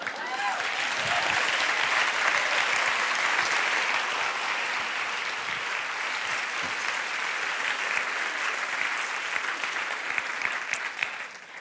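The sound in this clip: Long, hearty audience applause greeting an author invited to speak, a thick, steady roar of clapping that lasts over ten seconds and barely dips before it eases slightly near the end.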